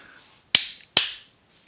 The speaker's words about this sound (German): Ich habe geklatscht, damit ich später den Ausschlag sehe, damit ich das besser finde.